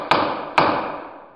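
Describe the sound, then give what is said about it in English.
A gavel bangs twice on a hard surface, each sharp wooden knock followed by a brief fading ring. “That's the sound of a gavel.”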